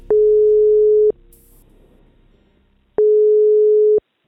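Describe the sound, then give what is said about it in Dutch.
Ringback tone of an outgoing telephone call: two steady one-second mid-pitched beeps separated by a pause of about two seconds, with faint low noise in the gap. “VRT Nieuws kon vanochtend even met haar bellen om te vragen hoe het nu gaat met haar broer in Iran.”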